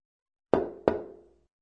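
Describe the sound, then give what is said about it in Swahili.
Two sharp knocks on a door, evenly spaced about a third of a second apart, each hard and resonant with a short ringing decay, then silence. “Hiyo ni sauti ya mtu anavyogonga mlango. Ndiyo, sauti hii pia inaelezwa hivi. Tom tom.”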